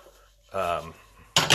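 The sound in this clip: Food sizzling in a metal pan is tossed, giving two quick, loud metallic clatters close together right at the end after a quieter lead-in.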